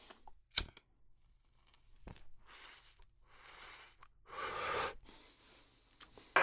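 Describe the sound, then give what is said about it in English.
Someone inhales smoke from a cannabis joint, making faint, breathy drawing sounds, with one longer, stronger draw in the middle. A few sharp, brief clicks and rustles occur around the draws. “that's a smooth inhale on the smoke”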